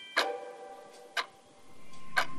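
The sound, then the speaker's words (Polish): A clock ticks three times, each tick sharp and bright, spaced evenly about a second apart in an otherwise quiet room tone. “Zegar tyka sobie”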